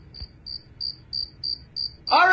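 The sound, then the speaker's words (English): Cricket chirps played as a comedic sound effect at a live event: six evenly spaced, high, thin chirps in a steady rhythm over a low background hum. A sudden louder burst of sound cuts in at the very end. “Crickets, please.”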